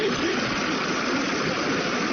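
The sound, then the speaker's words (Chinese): A car engine runs at a steady idle with a continuous, even mid-range rumble and no clear changes in level throughout. “车来了 啊！真快，还得说汽车，说到就到了。”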